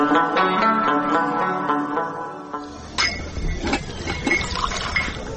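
Tea poured into a cup: a tonal gurgling stream runs for about two and a half seconds, then gives way to scattered light clinks of crockery.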